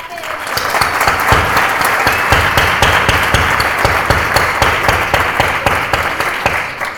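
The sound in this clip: Audience applause, a loud, sustained burst of many hands clapping in which sharp individual claps stand out, steady from start to finish.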